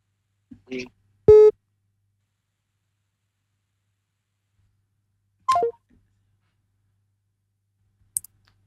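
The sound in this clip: Telephone line tones from a caller trying to get through to a phone-in bingo game: a few brief, isolated electronic tones and clicks separated by long silences.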